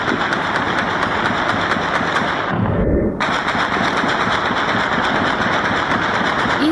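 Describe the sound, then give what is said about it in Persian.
Celebratory gunfire from light and heavy weapons across a city at night after a national cricket team's win. The shots form a dense, continuous crackle that briefly drops to a low rumble midway, then resumes at full strength. “فیر توسط اسلحه سبک و سنگین بود که شب گذشته پس از برد تیم ملی کرکت در اکثر نقاط شهر کابل شنیده می شد.”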